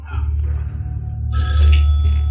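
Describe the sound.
A telephone bell rings, bright and high-pitched, starting partway through over a steady low rumbling hum.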